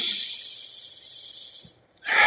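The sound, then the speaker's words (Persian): A person takes a deep breath: a long airy exhale fades away into a moment of near silence, followed by a sudden loud, sharp inhale. “من نفس کشیدم، آخیش جون گرفتم.”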